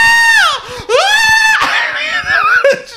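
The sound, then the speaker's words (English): A voice imitates screaming at a spider: two loud, high-pitched shrieks that slide downward, then shorter strained yelps and wavering cries. “Every time there's a spider in your house, film it. Then make a compilation video of you killing spiders and post that. I guarantee you it's going to be the funniest thing you ever post. I guarantee you. It's going to be me screaming.”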